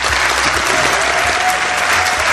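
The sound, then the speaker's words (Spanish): An audience applauds a guest with dense, continuous clapping, loud and even from start to finish, without any talk over it. “Os pido un aplauso para él.”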